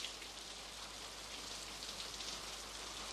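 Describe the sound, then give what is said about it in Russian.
Rain falls in a steady, soft hiss that stays faint and unbroken throughout, with no talk. “Дождь идет.”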